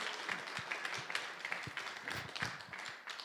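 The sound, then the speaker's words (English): Faint, steady clapping from an audience welcoming a speaker to the front of a church gathering, a continuous patter with some sharper individual claps. “So why don't we put our hands together and welcome him as he comes.”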